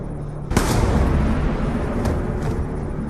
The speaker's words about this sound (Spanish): Disparle en una pierna.